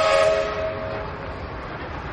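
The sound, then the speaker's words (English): Trains passing through a town square at a big intersection: a train horn blares briefly at the start and fades, leaving a steady, fairly quiet rumbling wash of rail noise. “A couple of trains.”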